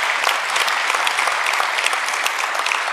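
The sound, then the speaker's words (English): A church audience applauding to welcome new members: dense, steady clapping that holds at an even loudness from start to finish, with no voices. “can we just put our hands together and welcome the folks that have been joining us over these last couple weeks?”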